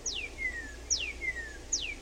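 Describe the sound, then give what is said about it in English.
A cardinal sings just before dawn, heard from indoors through a window: three clear, evenly spaced whistles, each sliding quickly from high to lower pitch and trailing off, over a quiet background. “You don't need chickens in your neighborhood. You've got a cardinal that's waking up everybody.”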